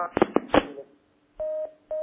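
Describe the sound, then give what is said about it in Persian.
A telephone call disconnecting: a few short, clipped sounds come first, then a brief silence. Two steady electronic beep tones of the same pitch follow, separated by a short gap. “تماس تلفنی قطع شد”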